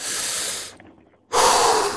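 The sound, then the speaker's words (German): Deep, forceful breathing as someone hyperventilates before blowing into a breathalyzer: one long airy breath, a brief quiet gap, then a second, louder breath. “davor ein paar Mal hyperventilieren”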